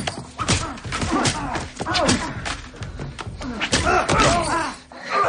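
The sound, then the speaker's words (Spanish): A door is smashed open with a hammer: a series of heavy thuds and slams land through a dense, scuffling struggle, with voices and groans mixed in. “Un corpulento hombre cierra un cerrojo antes de abrir y Daggy abre la puerta de un martillazo.”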